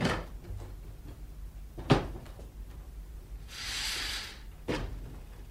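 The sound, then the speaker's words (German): A window being opened in a quiet scene: a few faint clicks and knocks, a short scraping slide partway through, then another knock, all soft and alone. “Wir werden das Fenster aufmachen, aber die Vorhänge zuziehen.”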